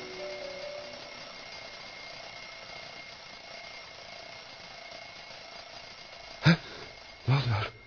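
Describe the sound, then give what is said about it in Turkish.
An alarm clock rings in a continuous, steady metallic rattle for about six seconds, then cuts off. A few short knocks follow. “Bu ses de ne? Çalar saatin sesi”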